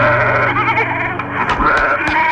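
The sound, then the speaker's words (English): Sheep bleat loudly in a steady stretch of wavering, nasal calls with little pause, heard on their own without talk. “Yeah, I like sheep.”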